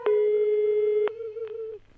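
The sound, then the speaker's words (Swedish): The ringing tone of an outgoing telephone call sounds as a steady single-pitched hum for about a second, then continues more softly, broken by a few faint clicks. “Jag ringer upp forskaren och visexperten Victor Ginsburg.”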